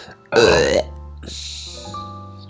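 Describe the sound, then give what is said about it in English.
A single short, loud burp with a rough, voiced rasp, followed by a quieter sustained tone. “Sorry, just a wee burp.”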